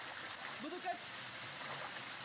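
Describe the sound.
Hot spring water flows, heated underground by volcanic magma and rich in minerals, in Alajuela province, Costa Rica. A faint, steady rushing hiss runs the whole time.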